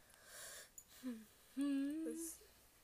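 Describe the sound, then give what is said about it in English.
A deep, wheezy inhale, faint at first and then a drawn-out breath with a thin whistling tone running through it for about a second, alone with no talk. “That was a really deep inhale. That was weird, sorry.”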